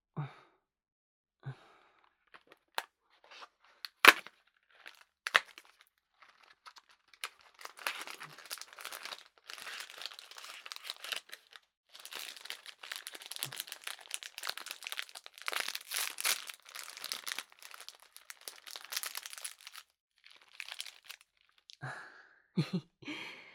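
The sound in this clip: A chocolate snack's plastic wrapper crinkles as it is opened. A few sharp isolated crackles come first, followed by a long stretch of dense, rapid crinkling and rustling, and a few scattered crackles at the end.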